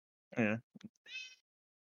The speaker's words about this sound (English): I hear a cat.